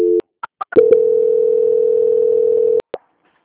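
Telephone line tones during a call transfer: a brief two-pitched beep, then a few quick clicks, a loud steady held tone lasting about two seconds, and a final pair of clicks before silence.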